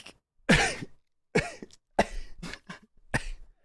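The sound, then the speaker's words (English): A person coughs a little, with a few short, dry coughs and a throat clear, separated by pauses of silence. “as he kind of coughs a little bit”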